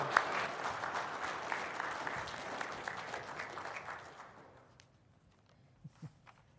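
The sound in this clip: An audience applauds to welcome a speaker at a morning church service. The clapping is loud at first, then thins and fades out over about five seconds, and a few soft thuds follow in near silence.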